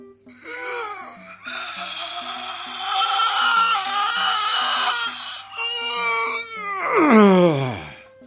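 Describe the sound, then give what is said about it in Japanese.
A person groans while suddenly stretching: a long, strained vocal sound held over several seconds, ending in a high, whiny tone that slides sharply downward. “いきなり伸びしてびっくりしたね”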